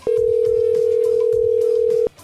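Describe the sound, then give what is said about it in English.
A telephone ringback tone on an outgoing call: one long, steady mid-pitched tone that holds for about two seconds and then cuts off abruptly. “Let's call them again, see how that worked out for them.”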